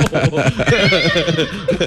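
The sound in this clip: A horse neighing in a sound effect: a loud, shrill, quavering whinny with rapid pulsing, lasting under two seconds.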